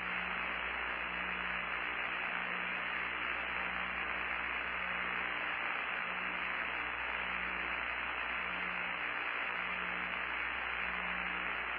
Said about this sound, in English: Now, what you're hearing is a communications checkout.